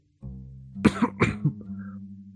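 Staged coughing, as if choking on a piece of sausage: a short voiced groan, then four rough, forceful coughs in quick succession, loud and alone.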